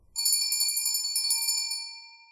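A doorbell ringing again: a bright, high tinkling chime with steady ringing tones that sound together and fade out over about two seconds.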